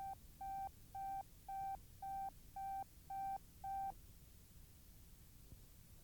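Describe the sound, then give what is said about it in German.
A telephone busy signal sounds on a call that will not connect: eight short, evenly spaced beeps at a single mid pitch, then the line falls quiet. No one speaks. “Tut mir furchtbar leid, aber ich komme einfach nicht durch. Die Leitung ist noch besetzt.”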